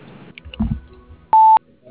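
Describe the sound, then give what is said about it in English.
A single voicemail beep tone: one short, steady, clean tone lasting about a quarter second, loud and alone after a few faint, quiet sounds. “Please leave a detailed message at the tone and I'll return your call as soon as possible.”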